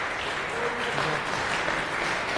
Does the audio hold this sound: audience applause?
yes